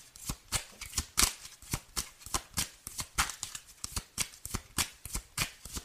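Tarot cards being shuffled by hand: a long series of crisp, papery slaps and riffles in a quick, fairly even rhythm, clear and fairly loud, with no voices.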